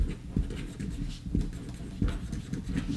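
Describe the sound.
Pen or pencil scratching on paper as answers are written down, steady and fairly quiet, with a few sharper taps and strokes scattered through and no talking.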